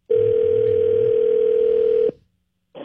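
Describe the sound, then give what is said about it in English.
A telephone line tone as a call is placed to a prize winner: a loud, steady mid-pitched tone holds for about two seconds, cuts off abruptly into silence, then another tone begins. “Get the numbers right here and dial it up.”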